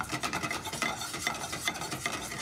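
Stirring of butter into a sauce in a pan: a continuous, even scraping and rasping texture with a faint sizzle underneath, steady in loudness throughout, with no talking.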